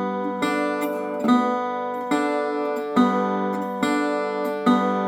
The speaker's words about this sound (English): And now we have to integrate the pinch with it, which is just your thumb and index finger activating the strings at the same time.